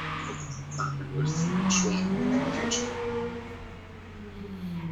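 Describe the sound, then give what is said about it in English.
A motorcycle revs and passes outside on a wet late-November day, its engine note climbing in pitch as it revs, then easing off as it moves past. “yep, that lovely dumbass motorcycle. It's late November. Put your fucking bike away, buddy.”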